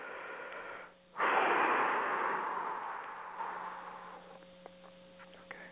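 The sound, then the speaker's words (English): A deep breath swells suddenly into one long, airy rush that then fades slowly over a few seconds. It is fairly quiet, with a faint steady hum underneath. “I'm going to take a deep breath, a dramatic pause, and then I will start.”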